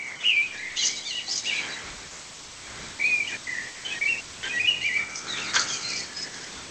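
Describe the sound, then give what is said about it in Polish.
Common blackbirds singing in a garden, one perched on a house roof, delivering several fluted, whistling phrases with bright chirps in between, rising and falling in loudness over a faint background hiss with no voices. “Słychać moje kosy, jak pięknie śpiewają.”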